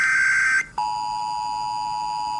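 Mobile phone emergency alert tone warning of a nuclear threat: a loud, steady electronic blare that drops out briefly near the start, then returns and holds at a lower, unwavering pitch, alone with no voices.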